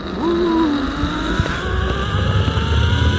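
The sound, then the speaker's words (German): A zip line trolley whirs along a cable more than 200 metres long, strung high over a reservoir dam at a climbing park. A thin whining tone dips slightly in pitch over a steady, rough rushing noise. “So klingt es, wenn man in luftiger Höhe an einem Seil über die Talsperre Pöhl flitzt.”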